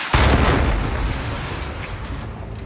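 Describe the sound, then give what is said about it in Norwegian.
A loud explosive blast from a US-led coalition bombing the Syrian city of Raqqa, a sharp heavy impact followed by a deep rolling rumble that slowly fades. “En amerikanskledet koalisjon bomber denne byen og andre IS-mål i regionen.”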